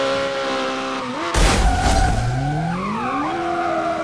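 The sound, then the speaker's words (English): Car tires squeal and skid as a car spins donuts in a video game. A loud screech bursts in over a steady engine drone, with the engine and tire tones sliding up and down in pitch. “I'm doing donuts.”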